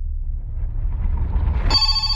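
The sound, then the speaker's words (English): Mobile phone ringing: a bright, high electronic tone cuts in suddenly over a low rumbling background and keeps sounding to the end. “Oh, I forgot to turn my phone off.”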